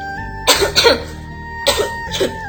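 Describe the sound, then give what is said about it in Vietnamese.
A dry coughing fit in smoky, stifling air comes as two pairs of harsh, rasping coughs separated by a short pause. The second pair is slightly softer. “Tuyệt Hành có chịu ho khan một trận”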